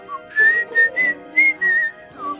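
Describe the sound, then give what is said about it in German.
A man whistles a short, bright tune of about six clear notes, mostly at one steady pitch with a lower note to close, heard alone without talk. “Jetzt pfeift er.”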